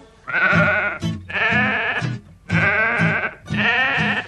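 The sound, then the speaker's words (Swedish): Sheep and lamb bleating on a farm: four long, wavering, nasal bleats follow one another with brief gaps, loud and clear, with no talk. “Ute på landet går fåret och lammet. Fåret och lammet framåt på vägen.”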